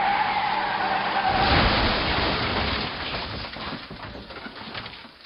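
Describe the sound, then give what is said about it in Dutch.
Tires screech loudly and continuously as an old car swings around a bend on wet cobblestones, chased by a racing car. The broad hiss is strongest early and eases off toward the end. “Tom Poes opende de klep en terwijl de oude schicht gierend de bocht nam, goot hij de inhoud op de natte straatstenen. Daar had de achtervolger in zijn racewagen niet op gerekend.”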